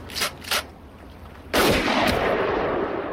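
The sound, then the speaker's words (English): A rifle is fired: a few sharp gunshot reports, the loudest one trailed by a sustained rumbling echo that lingers to the end. No voices. “Bobby flinches as Joe fires his rifle at Mickey.”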